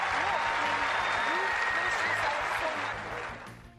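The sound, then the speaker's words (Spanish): A tennis crowd applauds and cheers as two players embrace after a final. Sustained clapping carries voices above it, and the sound fades toward the end. “Ambas se abrazaron y el público jaleó la escena.”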